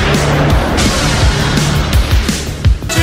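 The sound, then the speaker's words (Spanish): City street traffic at a standstill during rush hour: a continuous, dense roar of engines and vehicle noise with brief louder bursts near the end. “A esta hora, el tráfico se paraliza. Las calles están inundadas de vehículos.”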